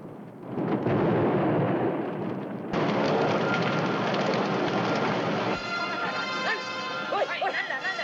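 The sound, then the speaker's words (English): Fire roars as oil drums ignite at a dock. A loud, sustained rushing roar surges sharply partway through and keeps going, with a voice speaking over it. “At the dock, the tube suddenly flares and flames quickly spread as the oil drums ignite.”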